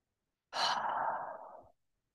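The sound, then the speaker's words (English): One deep breath taken during a guided breathing exercise, a soft airy rush lasting just over a second, heard alone in otherwise silent surroundings. “Now breathe that in with me.”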